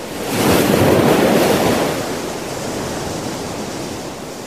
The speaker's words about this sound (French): Il s'enfonça dans la mer qui était devenue noire comme de l'encre. La mer se déchaîna.